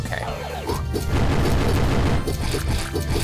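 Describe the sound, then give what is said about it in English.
Crunchy slashing and smashing effects from attacking a fire-spitting plant enemy in a 2D video game with mode 7 background scaling, a quick series of loud hits and bursts over busy game music. “plant has been slashed and hacked”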